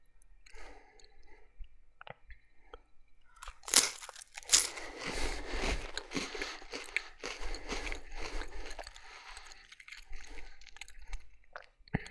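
Crunching of a cracker topped with liver pâté: many brittle crunches and wet chewing sounds, loudest in a few sharp bites early on, then continuing as steady munching for several seconds.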